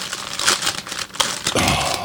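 A wrapper crinkles as a Panera brownie is opened: a couple of seconds of irregular crackling rustles with a few sharper crinkles, heard alone without talk.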